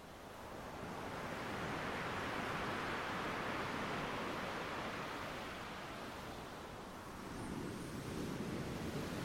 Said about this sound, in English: You are focused entirely on the rhythmical coming and going of the waves.